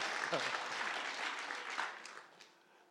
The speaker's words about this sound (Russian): Место для аплодисментов. Аплодисменты.